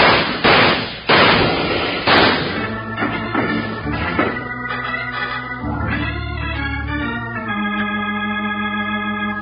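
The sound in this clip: Gunshots ring out during a chase in a Western radio drama, a few sharp, loud cracks in quick succession, then music swells in behind them.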